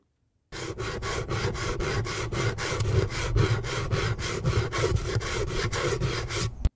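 Grating on a hand grater: a rapid, regular run of many rasping back-and-forth strokes, steady and fairly loud, with no voices.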